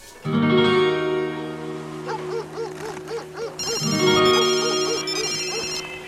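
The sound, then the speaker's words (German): A mobile phone rings with an electronic ringtone: a repeating melodic pattern of bright tones that sounds loud and steady across the whole clip and grows fuller partway through. “Ein Anruf von seinem Mobiltelefon.”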